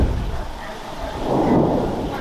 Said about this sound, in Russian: Звук был серьезный. Пушка.